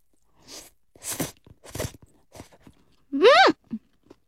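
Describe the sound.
Someone eats thin soba noodles made into miso-flavored yakisoba, with several short noisy slurping and chewing bursts, then a voiced hum and a final faint bite.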